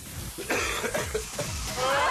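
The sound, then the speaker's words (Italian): A person who has caught a cough gives a few short, harsh coughs in quick succession over a noisy background. “Non mi fate ridere che ho preso la tosse in questi giorni di aria condizionate e di tanto vento.”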